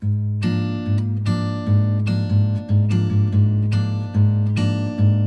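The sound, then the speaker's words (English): Steel-string acoustic guitar playing a sequence of ringing strummed chords, each with a bright attack and a sustained, overlapping decay, in a steady, unhurried rhythm with no voices. “so a steel string acoustic guitar, which sounds like this.”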